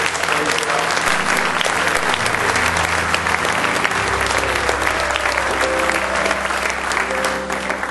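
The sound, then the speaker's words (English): Dense, steady hand clapping from a worship audience fills the whole stretch, loud and continuous with a crowd murmur, while sustained organ or keyboard tones hold underneath. “give this presence that we feel here tonight just a hand clap of worship tonight.”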